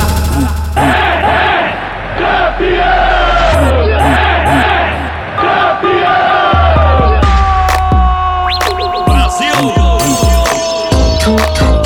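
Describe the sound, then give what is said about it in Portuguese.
Football fans shouting and cheering within a song about a match: a loud, continuous crowd roar with rhythmic group shouts and whoops, swelling and dipping briefly a couple of times. “Falta um minuto pro jogo acabar. Vê o cantinho que dá pra passar. Pagou de placa pra comemorar. E sua torcida poder gritar:”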